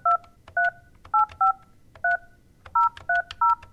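Touch-tone keypad dialing of a phone call to a state prison: a quick, irregular run of short, bright two-tone beeps, loud against a quiet background.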